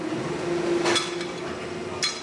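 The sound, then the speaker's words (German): Two sharp, bright knocks on a plastic part made with 30% glass fibre, one near the start and one near the end, over a steady low background hum. “hört man richtig den glasigen Sound, als würde ich ein Glas irgendwo anschlagen. Weil hier 30% von diesem Teil sind Glas.”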